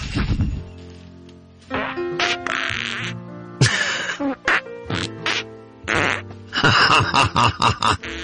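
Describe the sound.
Fart noises played as a musical tune on a novelty Christmas album: a string of pitched, buzzing bursts, some held like notes and others short, ending in a rapid run of many choppy toots.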